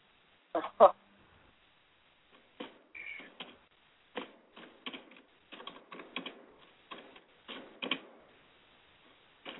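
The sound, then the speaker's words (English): Typing on a computer keyboard: many quick, light keystroke clicks in irregular clusters and short runs, with brief pauses between bursts, fairly soft overall. “I'm just typing in here”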